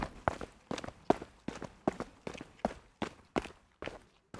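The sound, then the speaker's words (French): Quick footsteps of someone running to a bedroom: many sharp, evenly spaced steps in a steady rhythm, with no talking. “Vite, il court se réfugier dans sa chambre.”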